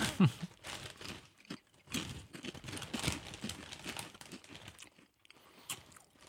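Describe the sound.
A sealed crisp bag torn open for a tasting: busy crinkling and crackling of the bag with crunchy bursts that run irregularly for about six seconds, with no talk over it.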